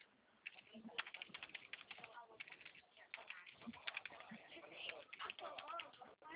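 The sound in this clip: Faint, muffled typing on a computer keyboard: many quick, uneven key taps run throughout, with brief pauses between bursts.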